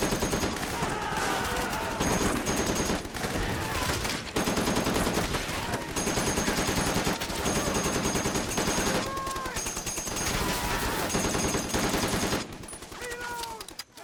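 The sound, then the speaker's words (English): Heavy gunfire erupts during the night-time Japanese banzai charge against Marines on Guadalcanal. Dense, loud rapid bursts and machine-gun fire continue almost without pause before thinning near the end. “A marine sentry fired shots, and the Japanese bonsai charge began.”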